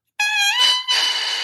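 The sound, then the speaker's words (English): An unfinished oboe reed crowing on its own: a loud, buzzy, bright squawk rich in overtones, held for about a second with a brief dip partway through. “So that unfinished reed, which crowed like this,”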